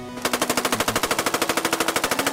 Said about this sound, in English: It's where the Nidorino does the horn stuff. How the fuck is that gonna work? It hits 3 to 4 times. It's horn attack.